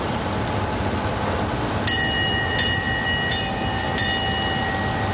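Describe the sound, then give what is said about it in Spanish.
A train starting to move sets up a steady mechanical rumble, and four bright, ringing metallic chimes sound at even intervals over it. “El tren arranca y Luisa corre por el pasillo hasta la puerta.”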